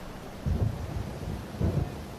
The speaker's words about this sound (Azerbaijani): Yağış yağır.